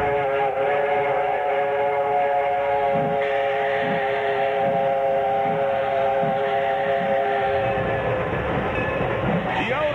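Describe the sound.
Train rolls along with a loud, sustained chord-like whistle held over rhythmic clacking wheels, and the whistle cuts off near the end, leaving the rumble of the rail cars.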